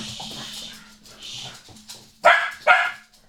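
Dogs barking in a village home: two sharp, loud barks in quick succession near the end, following a stretch of quieter, murmuring sounds.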